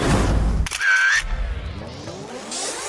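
A camera shutter clicks as a quick selfie is taken, a brief mechanical snap set among other loud sounds.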